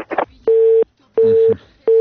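A telephone busy signal after a call is cut off: three loud, steady, mid-pitched tone pulses separated by short silences, following a brief burst of other sound at the start.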